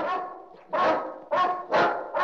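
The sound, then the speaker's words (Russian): Dogs bark in a run of several loud, harsh, mid-pitched barks at a fairly steady rhythm, with short gaps between them. “Только собаки лай подняли.”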